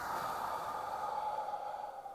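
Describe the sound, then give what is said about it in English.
A slow breath out during a guided breathing exercise: a soft, steady, breathy hiss that holds evenly, then thins slightly as it trails off near the end. “Breathe in. Hold it. Breathe out.”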